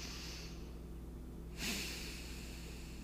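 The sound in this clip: A single deep breath in during a guided forgiveness meditation: a soft, quiet, airy inhale that starts about halfway through and fades out, with no talking.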